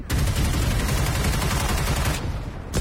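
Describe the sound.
Machine gun fire in a battle scene, a loud, dense and continuous barrage of rapid shots lasting nearly three seconds, thinning briefly near the end before a final burst.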